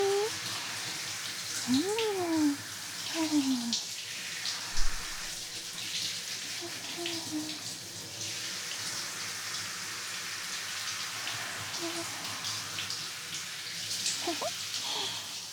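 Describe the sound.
Running water while hair is washed, a steady soft hiss that continues throughout. A faint voice is heard briefly early on.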